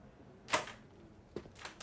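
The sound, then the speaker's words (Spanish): Quiet camera shutter clicks while photos are being taken: three short, sharp clicks, one early and two close together near the end, separated by near silence. “Hago unas cuantas fotos más estando de pie frente a vos.”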